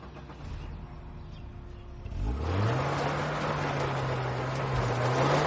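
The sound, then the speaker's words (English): A Volvo car drives in circles on a dusty parking lot. A quiet, rough rumble gives way to the engine revving up partway through into a louder, steady drone over a gritty wash of noise. “Nitram drives the Volvo in circles, kicking up dust.”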